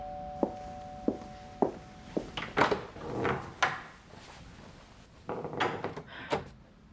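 A door is opened amid a few sharp wooden knocks and clunks at irregular intervals. These lead into a busier cluster of thumps and rattling clatter, all fairly faint, with no voices.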